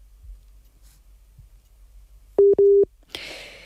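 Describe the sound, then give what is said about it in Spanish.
Busy tone after a dropped phone call: two short, steady, mid-pitched beeps in quick succession, followed by a sudden burst of hiss. “se ha interrumpido la comunicación. Vamos a intentar recuperar la llamada con Ousmane”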